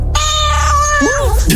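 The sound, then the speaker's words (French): A cat meows loudly in one long, drawn-out cry with a wavering pitch, and a shorter call follows at the end. “Oui, un chat.”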